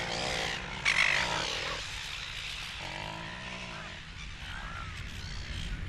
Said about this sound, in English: we've just walked through the breeding colony, an amazing cacophony of sounds and smells.